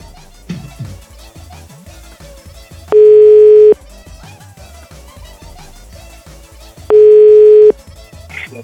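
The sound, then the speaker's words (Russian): Telephone ringback tone while placing a call: two identical steady buzzing tones, each under a second, about four seconds apart, over background music. “Какие ощущения, когда звонишь Ряженке? Вы звоните Ряженке.”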